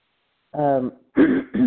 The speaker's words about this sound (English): I was not the one coughing, but I am a little bit kind of, in the mornings I get that way.